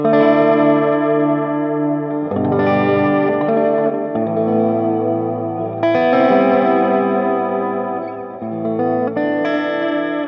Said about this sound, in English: So again, just a little touch of delay and a little bit of vibrato, and suddenly that sound is much richer,